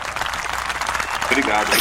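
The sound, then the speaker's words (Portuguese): Applause for guests arriving on a talk show: a dense, steady patter of clapping that runs the whole time, with voices speaking over it. “Palmas pra ele daí.”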